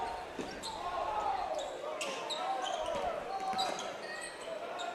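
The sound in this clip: Basketball dribbled during a high school game between Portage and Baraboo, under full-court pressure. A few bounces sound under steady play-by-play talk and crowd noise.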